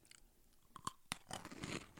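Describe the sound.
Crunchy chewing and biting on a fudge-covered ice cream bar. A few sharp, separate bites come first, then a dense run of moist crunching and mastication, quite faint and without any talking.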